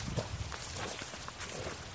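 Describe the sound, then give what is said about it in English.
Footsteps of people walking outdoors toward the woods, a steady series of soft, faint steps with little else around them. “After our little jam session, we took a walk outside toward the woods.”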